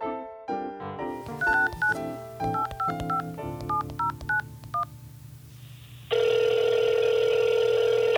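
Telephone keypad tones beep in a quick irregular run as a call is placed, followed by a loud, steady ringing tone that lasts until the end.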